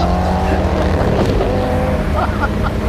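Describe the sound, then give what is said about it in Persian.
Two cars racing side by side make a loud, continuous engine roar: a dense, steady drone with sustained tones that shift slightly throughout. “دوتا ماشین به موازات هم در حال حرکت هم.”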